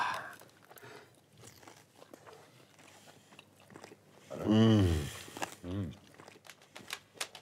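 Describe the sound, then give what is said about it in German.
Crunchy biting and chewing on a spicy dish, with a few audible bites and mouth noises. Short, loud vocal murmurs of appreciation come through partway. “So, ich glaube, das ist jetzt was recht Pikantes. Dann essen wir es einfach mal.”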